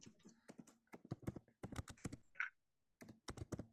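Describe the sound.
Keys clatter on a computer keyboard during copying and pasting: many quick, faint keystrokes in irregular bursts with short pauses between them.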